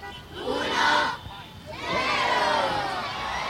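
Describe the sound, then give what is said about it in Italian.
Children cheer and shout as a crowd at a Christmas tree lighting in Rome. A loud burst of high voices dips briefly, then swells again into sustained excited cheering to the end. “questi sono i bambini che assistono all'accensione dell'albero di Natale a Roma.”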